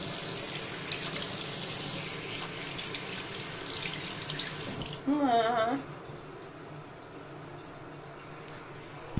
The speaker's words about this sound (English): Excuse me, I need to wash my hands.